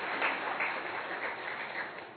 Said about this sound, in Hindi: जोरदार तालियां सर के लिए।